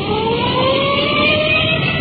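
A police car siren wails steadily while the car rolls code 3, its tone sustained and loud over a constant engine drone, without speech.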